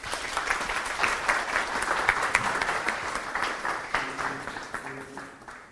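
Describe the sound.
Audience applause welcomes a subdeacon back as the speaker at a church teaching gathering. The clapping is moderate, brisk and steady, with no talk over it, and thins out near the end.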